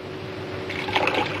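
Water is poured into a lemon drink, a short liquid fill that starts about halfway through and swells into a brighter, bubbling trickle over a steady low background.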